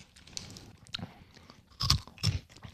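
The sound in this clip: Crunching bites as someone chews thick, crispy, unusually firm spätzle, a few irregular crunches with two louder ones near the end, quiet and without talk.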